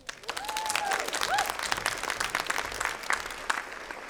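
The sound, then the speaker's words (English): An audience applauds as the Amelia Project is welcomed onto the stage for a live show. Many hands clap in a steady patter, with a few whoops near the start. “Please welcome to the stage the Amelia Project.”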